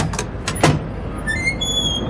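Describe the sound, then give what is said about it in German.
A squeaking car door opens: a few soft knocks and a brief rattle are followed by a thin, high-pitched squeal that wavers and holds to the end. “Die quietscht ja wieder. Ja, die quietscht immer. Die muss quietschen, damit ich weiß, dass ich noch eine Tür habe, nicht?”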